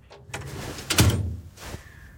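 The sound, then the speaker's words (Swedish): A drying cabinet door at a school is opened with a few soft clunks and scrapes, the loudest knock in the middle, the others fainter, with no talking. “Fröken låser ytterdörren och öppnar torkskåpet.”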